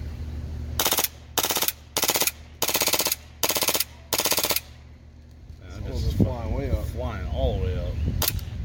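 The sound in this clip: Six rapid bursts of automatic fire come from a rifle fed with standard M4 magazines, each burst short, sharp and evenly spaced. People talk after the shooting stops.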